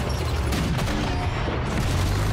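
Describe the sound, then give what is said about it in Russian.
A 45 mm anti-tank gun firing rapidly in battle makes dense, continuous booming that stays loud and even throughout, with no clear gaps between shots. “Выстрел 45-ки. Прицел постоянный! Три снаряда! Беглый огонь!”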